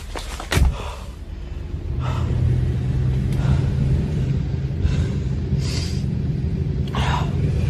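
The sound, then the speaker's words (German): A petrol car drives along. After a single sharp thud near the start, a low engine rumble swells in and then holds at a steady, even level to the end. “Ein Benzinauto. Ein echtes Benzinauto. Wie lange bin ich in sowas nicht mehr gefahren?”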